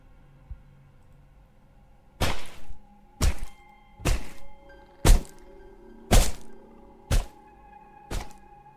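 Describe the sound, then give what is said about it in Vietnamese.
Seven heavy thwacks of a wooden cane brought down hard in a beating. The blows are sharp and loud, spaced roughly a second apart, over a quiet background. “giật lấy cây hèo của thằng Tí đang cầm ở trên tay. Rồi sau đó nó giơ lên cao, đập thẳng tay xuống.”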